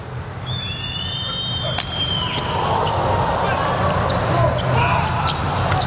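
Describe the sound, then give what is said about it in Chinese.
Volleyball serve in the first set of a match involving Poland's team. A few sharp, bright ball smacks ring out over a steady roar of crowd noise, with thin high tones near the start. “目前第一局还是一个均势，安德森来发球”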